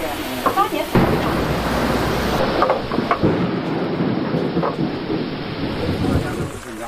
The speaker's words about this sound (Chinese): 席子的发掘工作被雷声打断，大雨随之而来。